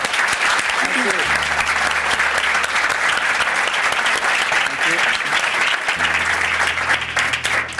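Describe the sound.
An audience at Davos breaks into sustained applause to welcome a speaker. The dense, even clapping continues at a steady loudness throughout.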